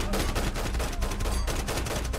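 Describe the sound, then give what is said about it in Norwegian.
Gunfire from Afghan and Norwegian assault forces shooting back at a terrorist during an attack in Kabul, a dense, unbroken barrage of rapid overlapping shots and automatic bursts. “Det gjør han ikke, så CRU og det norske angrepslaget skyter tilbake.”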